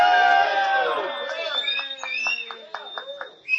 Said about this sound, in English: I was going to ask if you love the political cesspool, give us a big rebel yell, but they preempted it, and they gave us the rebel yell.